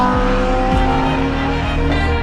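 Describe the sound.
A race car lapping a track roars loudly and continuously at high revs, its engine tone sweeping and shifting a few times, with a hint of tire squeal.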